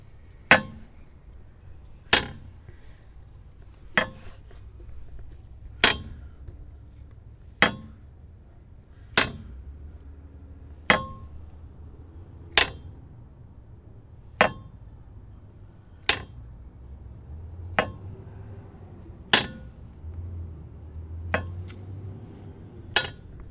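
A sewer grate clanks many times at a regular pace of about one clank every two seconds. Each hit is a sharp metallic clang with a short ringing tail over a quiet, low background.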